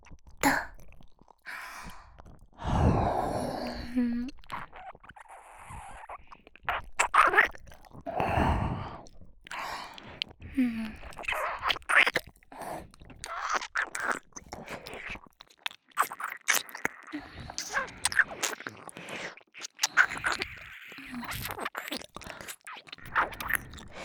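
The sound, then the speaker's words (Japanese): Wet ASMR mouth sounds of someone nibbling and biting an ear, with chewing and soft crunching noises coming in irregular bursts separated by brief pauses. “もう、この耳いただいちゃおう。”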